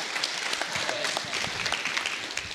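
An audience applauding two performers at a 2022 gathering in Aruba: a dense, steady roll of many hands clapping, holding a constant level throughout.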